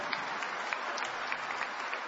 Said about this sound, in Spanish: Dale aplausos a él.